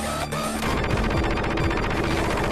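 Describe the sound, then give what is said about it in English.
Rapid machine-gun fire from a 16-bit video game: a short lead-in, then a dense, steady stream of harsh, loud synthesized shots that runs to the end. “But he also stuck around for Streets of Rage 2, where his machine gun sounded like this.”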